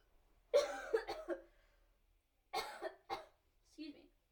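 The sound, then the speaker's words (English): A person with ice stuck in the throat coughs in a few separate clusters of short, rough bursts, partly voiced, with quiet gaps between them. “I tried to cough.”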